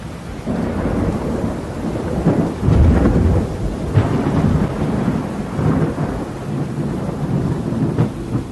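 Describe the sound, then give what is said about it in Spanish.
Thunder rolls through a thunderstorm over steady rain, a loud continuous rumble that swells and peaks near the middle before easing back, with no voices. “Mientras viajaba en el bote, pude apreciar grandes tormentas rojizas en ese extraño firmamento oscuro.”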